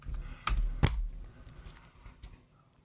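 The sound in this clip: Keys on a computer keyboard click as a question is typed in, a few sparse, sharp taps, fairly faint, with quieter clicking between them.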